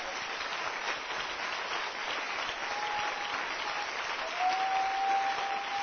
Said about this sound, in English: Are you clapping your hands for the Lord?